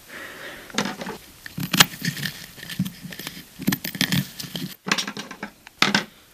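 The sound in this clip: Fabric being cut around a hat mould, heard as many quiet, irregular bursts of crisp snipping, rustling and crinkling separated by short pauses.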